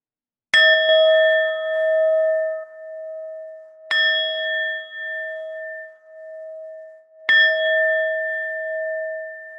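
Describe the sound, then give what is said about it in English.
A meditation bell rings three times at the close of a meditation. Each strike is clear and bright, with a long sustained tone that fades slowly before the next one. No one speaks. “listening to the sound of the bell as the meditation comes to a close, noticing the sound arising and passing away.”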